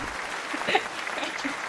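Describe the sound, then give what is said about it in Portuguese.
Brief audience applause, a short, faint burst of clapping with a small peak partway through. “Mais uma salva de palmas, né?”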